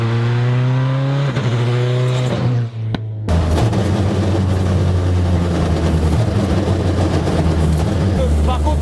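Citroën Xsara WRC rally car engine, very loud: a steady harmonic drone dips in pitch, then cuts to a harsher, rougher roar with rapid revving fluctuations.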